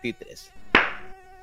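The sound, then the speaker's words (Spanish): A mosquito buzzes in a thin, steady, high-pitched whining drone, interrupted midway by a single sharp hit before the whine carries on faintly. “¡Ay! Ya me picó a mí también un zancudo.”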